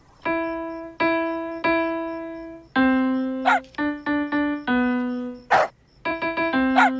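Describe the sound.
A Saint Bernard puppy yips and barks in an uneven run of many short, high-pitched, tonal yelps with a few rougher barks among them, with no voices.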